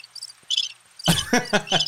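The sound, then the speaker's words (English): Crickets chirp in high, rapidly pulsed trills that repeat in short bursts, growing louder and more insistent toward the end. “This is us in Thailand. Or are those crickets?”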